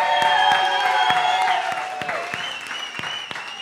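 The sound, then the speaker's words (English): An audience at a live show cheers and applauds after a call-out to the Bronx. Dense clapping mixes with shrill whistles and cheers, and the noise eases slightly toward the end. “And just so people know that you're proud to be from the 718, Bronx, make some noise.”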